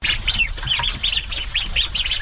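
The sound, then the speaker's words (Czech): Ducks just fed on a farm in the Šumava region give a quick run of short, bright, evenly spaced calls, many in a row at a steady rhythm, fairly loud and without any talking. “Večeře. Lada Wagnerová právě nakrmila kachny.”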